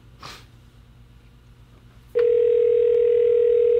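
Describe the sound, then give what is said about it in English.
A telephone dial tone sounds while a call is placed: a loud, steady, unbroken tone cuts in abruptly about halfway through and holds to the end, after a quiet stretch with a brief breathy sniff near the start. “Let me put it up here. Dial it up.”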